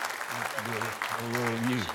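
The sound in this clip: A church audience at a Baptist church applauds to welcome a visiting preacher. The clapping is soft and steady beneath a voice speaking over it.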